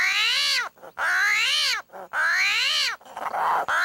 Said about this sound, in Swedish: en armadillo eller ett bältdjur då? Jo, de låter så här.